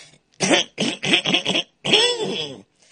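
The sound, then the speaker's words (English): Exaggerated throat clearing: a few rough, voiced bursts in quick succession, then a longer, drawn-out grumbling rasp, loud and alone with short silent gaps between. “my throat is not clear. I'm trying to clear it.”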